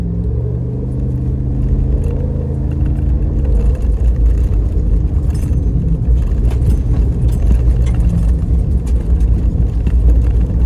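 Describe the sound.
Loud, continuous engine and road rumble from a ZR2 off-road pickup truck with skid plating and rear leaf springs, driving at around highway speed. The drone stays steady throughout with no talk.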